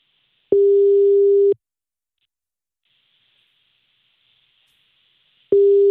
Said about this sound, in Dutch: Ja, we gaan nu bellen. We gaan nu je vader bellen.